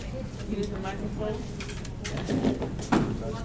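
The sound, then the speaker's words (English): A chair is moved, giving low scraping and knocking sounds for about three and a half seconds, with a couple of louder bumps near the end. “Hey, take this chair. I'll go sit in my old chair.”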